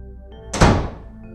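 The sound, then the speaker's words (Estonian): A house door is slammed shut by someone leaving: a single loud, heavy thud that dies away quickly. “ta surus mul kätt ja lahkus siis, lüües ukse oma selja taga pauguga kinni.”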